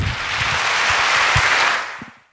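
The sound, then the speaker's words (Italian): An audience applauds at the close of a cultural talk at a meeting in Rimini. The clapping is dense and sustained, holding a steady level throughout before tapering off at the end. “Un applauso al termine del primo incontro di cultura al meeting di Rimini”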